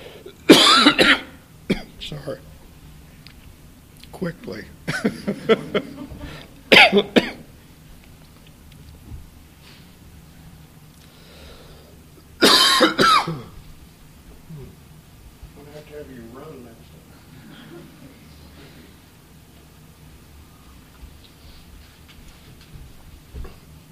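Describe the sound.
Several sharp coughing fits break out between quieter stretches, the strongest bursts near the start and again midway through, with faint talk in the gaps between them.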